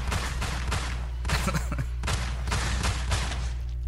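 A gunfire sound effect: a rapid series of many loud, sharp shots over a continuous low rumble, repeating steadily throughout.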